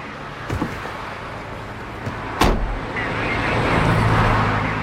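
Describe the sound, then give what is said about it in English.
Police car doors shut as people get into the back and front, heard as two thuds, the second louder, over a steady engine and road rumble. “puts her into the back of the police car, then walks round and takes a seat next to her.”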